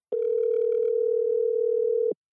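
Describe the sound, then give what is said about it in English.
Telephone dial tone while calling someone: one steady, unbroken mid-pitched tone lasting about two seconds, then cutting off cleanly, heard alone without talk. “Let's go ahead and dial him up right now.”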